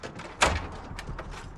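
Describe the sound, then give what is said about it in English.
A door is shut behind someone and locked: one muffled thud as it closes, followed by a couple of faint, light clicks from the lock, with no talking. “Glancing round, she shuts the door behind her and locks it.”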